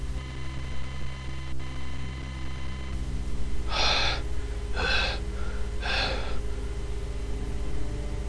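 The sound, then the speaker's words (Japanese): Three sharp gasping breaths from someone who has just woken suddenly, each a short, breathy intake, evenly spaced about a second apart over a steady low hum. “急激に目覚めた時に息を吸い込んでしまったため息が乱れている。ドクンドクンと心臓の鼓動も敏感に感じられる。まるで短距離走でも走ったような息切れ。”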